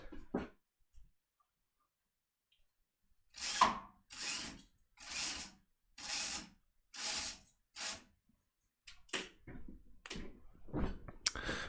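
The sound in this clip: Ratcheting, rasping bursts from a window blind being adjusted to cover the window against changing daylight: several evenly spaced pulls, then a few quicker, irregular ones, with no talk.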